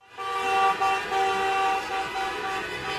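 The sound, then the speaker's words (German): Car horns honk together in a motorcade driving through city streets, a loud sustained blare of steady tones that holds almost unbroken throughout. “So klangen die Autokorsos, die in dieser Woche durch verschiedene deutsche Städte gefahren sind, unter anderem in Hamburg, München, Köln und Berlin.”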